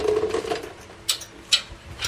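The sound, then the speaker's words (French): Three sharp metallic clicks ring out as a 17 mm flat wrench works a nut loose on the arm holding the front wheel hub of a 4x4. The clicks are spaced about half a second apart after a quieter stretch. “La clé 17, ça y est, je l'ai trouvée. C'est pour dévisser un écrou.”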